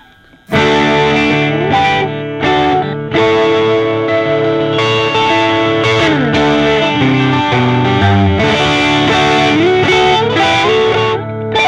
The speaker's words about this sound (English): Pretty good for a guitar meant for I have no idea what, but yeah. Something. Let's hear that top neck. I want to hear that.